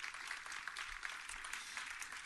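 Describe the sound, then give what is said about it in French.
Faint audience applause, with a soft, continuous patter of many hands clapping at an even level and no voices standing out. “Pour retenir, c'est pas mal, vous pouvez applaudir.”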